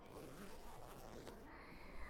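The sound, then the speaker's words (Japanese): A clothing zipper is pulled open, giving a faint, rasping slide over a steady, noisy background. “ほら、チャック開けて”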